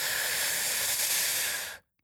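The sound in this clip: A deep breath drawn in during a guided breathing exercise, one long, airy, hissing inhale holding steady for nearly two seconds before cutting off abruptly into silence.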